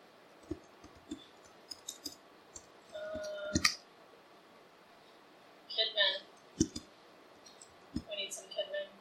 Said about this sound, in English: I'm going to go to courses again. I'm going to click add a course.